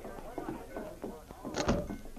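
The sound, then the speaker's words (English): A door is pulled shut with a solid thunk near the end, closing off the back room of a cafe, with voices and movement just before it. “Joe closed the door behind them and at the same time pulled the gun out of his pocket.”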